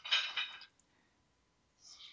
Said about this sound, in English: Somewhere along the line, someone has a cat jumping on dishes.